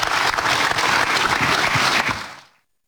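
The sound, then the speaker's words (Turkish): Enthusiastic audience applause forms a dense, sustained wash of clapping. It stays loud for about two seconds, then quickly fades to silence. “Kuvvetli bir alkış rica ediyoruz.”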